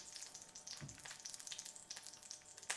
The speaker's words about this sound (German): Einfach so eine Handvoll. Ja, die frittieren wir da jetzt einfach ein bisschen mit.